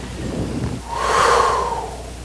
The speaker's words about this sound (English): And what you're going to do is take a breath,